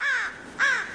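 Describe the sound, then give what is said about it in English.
An American crow calls twice, two loud, harsh, hoarse caws with a short gap between them and no other sound around. “What's all that racket outside? That's the call of the American crow.”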